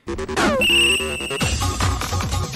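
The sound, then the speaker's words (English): A telephone ringing in the movie Hackers, a loud electronic ringing tone amid a busy, clashing mix of other sounds. “And so he starts getting phone calls offering him sex, and we get treated to”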